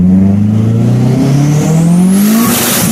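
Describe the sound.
A car engine revs hard under acceleration in first gear, its loud, steady drone climbing as a thin turbocharger whine spools upward in pitch above it.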